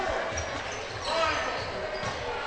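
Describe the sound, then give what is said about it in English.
Basketball dribbled on a court during a women's game, a run of steady low bounces under constant loud crowd noise. “And Shea Trombetta will dribble it back out towards half court”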